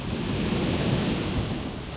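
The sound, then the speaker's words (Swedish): Ocean waves break against rocks in a steady, dense roar of surf with a heavy low rumble beneath it. The sound is continuous, with no distinct separate crashes standing out, and no voices. “I miljontals år har havets vågor slagit mot klipporna.”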